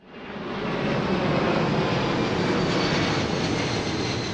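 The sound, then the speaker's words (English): Loud, steady roar of a plane flying low over a leafy residential neighborhood in the flight path of Memphis International Airport. It swells in from near quiet at the start and then holds a broad, even rumble throughout. “That might sound like an airport runway, but it's actually a leafy residential neighborhood in Memphis called Cooper Young, and it's right in the flight path of Memphis International, home of FedEx.”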